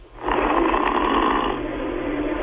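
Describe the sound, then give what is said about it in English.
An overweight man in his sixties snores in Minnesota, giving one loud rasping snore of about a second over a low, steady background hum. “Not snoring that much right now. Let's see if we can hear some snores.”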